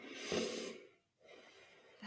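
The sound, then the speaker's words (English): A person breathes on request: a soft, breathy inhale-exhale, a brief silence, then another quiet, airy breath that fades out with a short burst at the end. “So I'm going to ask you to breathe.”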